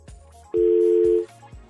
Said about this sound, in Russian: Я хочу набрать сейчас человека, который точно знает... Ну, а что он не набирается?